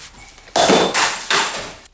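A plate thrown to smash on a hard surface gives a few loud, bright clattering crashes in quick succession, each a sharp impact with a ringing, shard-like rattle that tails off, alone without talk.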